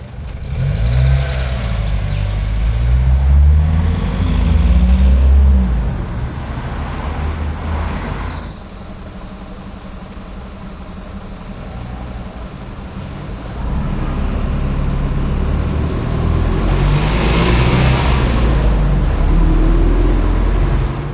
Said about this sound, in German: das waren ein paar Sekunden Straßenverkehr